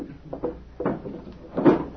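A table drawer is opened to take out a wallet: a few soft scraping and knocking sounds of the drawer sliding and being handled, with quiet gaps between them and no talk.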